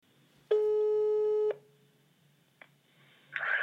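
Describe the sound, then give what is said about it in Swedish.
Telephone ringing on an outgoing call: one steady, buzzy ring tone about a second long, then quiet, a single click and a short burst of noise at the end. “Så jag tänkte att vi skulle ringa en Eurovision-expert.”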